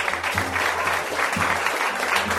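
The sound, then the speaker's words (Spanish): Townspeople cheering and acclaiming as a crowd, heard as a steady, dense wash of clapping and crowd noise at a moderate level with no break throughout. “acudió todo el pueblo, que vitoreaba y aclamaba a Pulgarcita”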